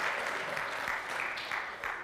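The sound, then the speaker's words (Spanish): An audience applauding during a church service, a steady, even wash of many hands clapping, fairly soft and unbroken throughout. “No, ya no aplaudan, ya es muy tarde, ya pasó.”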